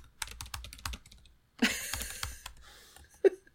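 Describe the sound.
Rapid, irregular keystrokes clatter on a computer keyboard as a Google search is typed, in two quick bursts separated by a brief pause.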